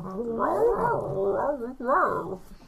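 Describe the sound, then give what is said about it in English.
A human voice imitates a dog's growl: a continuous, rough, wavering low vocal rumble with shifting pitch, broken by one short pause before a final rising burst. “Dog growl.”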